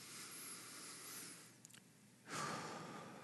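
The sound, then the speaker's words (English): A slow, deep breath taken during a church sermon, a soft breathy hiss that swells into a louder rush of air near the end, with no talking. “I'm going to take a deep breath.”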